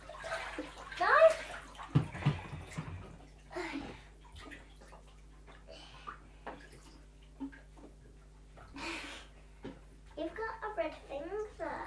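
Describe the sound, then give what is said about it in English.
Bathwater sloshes and splashes as someone is washed in a bath that has cooled down. Bursts of splashing come and go under voices talking. “I'll wash you. Okay, let me sit up then. Oh, it's not that warm, this bath anymore.”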